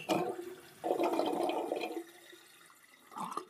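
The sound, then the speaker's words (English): Rushing, gurgling water sound effects like a toilet flush: a loud surge of water, then a quieter trickling stretch, and a brief renewed swell near the end. “I'm using all these watery sounds that are likely reminding you that you have a bladder and that it does, in fact, contain liquids.”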